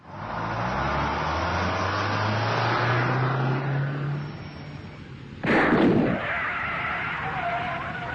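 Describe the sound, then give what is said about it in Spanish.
A city bus tire puncturing: a steady engine drone with a low humming tone gives way to a sudden loud, hissing burst, followed by a lower rushing noise. “Bueno, gente, van a tener que bajar porque pinchamos una goma.”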